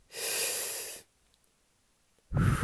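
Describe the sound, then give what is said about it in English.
A big, deep breath is drawn in as a steady, airy inhale lasting about a second, followed by a silent pause and then the start of a fuller, lower breath out. “So take a big deep breath in”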